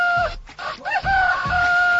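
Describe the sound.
Chicken crowing: a loud, drawn-out, pitched call held on a steady tone, briefly broken midway and then resuming, over a low background rumble.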